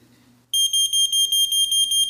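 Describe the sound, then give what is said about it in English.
A tremendously loud, shrill electronic alarm beeps in the night. It starts abruptly after a quiet moment and pulses in a rapid, even series of high-pitched beeps. “there was a tremendously loud beeping sound.”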